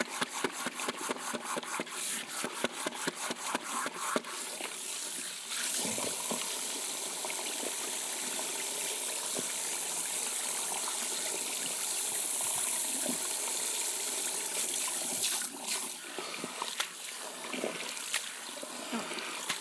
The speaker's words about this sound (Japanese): 根元から丁寧に洗い流すのがベストで、キューティクルでフレッシュな髪の毛にする秘訣だからね。